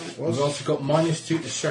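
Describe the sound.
A balloon is rubbed against a person, giving squeaky, rubbery stroking sounds that keep going under people talking.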